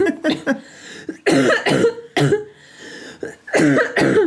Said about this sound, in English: Just got a really bad cough still. Literally holding in a cough as we speak.